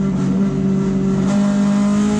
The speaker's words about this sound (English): Yeah, is that the 2002 right there? That's one of the 2002s. Yeah. BMW. A little BMW.